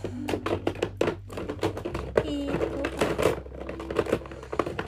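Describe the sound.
Opening inexpensive makeup packaging makes many sharp taps and clicks mixed with light plastic rustling. The sounds come quickly and irregularly, with no talk.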